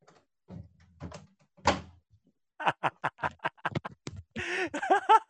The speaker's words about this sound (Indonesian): nggak keras ngejebret pintunya itu loh